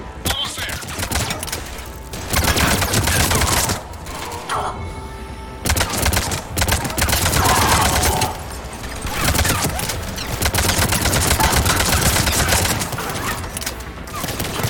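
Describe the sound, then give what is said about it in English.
An engineer's deployed turret fires rapidly in a video game. Dense runs of automatic shots come in several long bursts separated by short lulls, with a voice speaking at times. “An engineer set up a turret. It's like we're really playing Team Fortress 2.”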